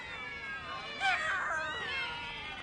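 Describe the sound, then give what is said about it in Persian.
Cats meow and yowl as many flee from a house. A few overlapping, wavering cries swell in the middle and then trail off over a faint background hiss. “چقدر گربه دارن از توی خونش فرار میکنن”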